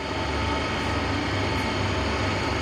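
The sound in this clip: Steady mechanical rumble of a stage lift being raised in a concert hall, a loud, even roar and hiss that holds without a break for the whole stretch.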